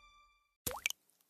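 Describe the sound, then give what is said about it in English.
Liquid plops as unaged whiskey drips while transforming into Jack Daniel's Tennessee Whiskey: a resonant splash with an upward-gliding tone, two quick sharper drops, then a few faint trailing drips, heard alone. “That's the sound of unaged whiskey transforming into Jack Daniel's Tennessee Whiskey.”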